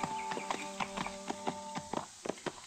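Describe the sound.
Horses' hooves clip-clopping as two riders set out from Dodge toward a ranch, an even, unhurried run of many soft, faint clops with no voices.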